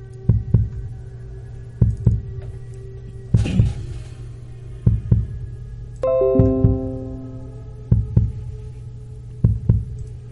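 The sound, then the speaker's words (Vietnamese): Slow heartbeat of seven paired lub-dub thumps, low and evenly spaced about every one and a half seconds over a steady low hum. A brief whooshing swell and a run of stepped ringing tones sound between beats. “Thình thịch, thình thịch. Âm thanh quen thuộc mà xa lạ lại một lần nữa truyền ra.”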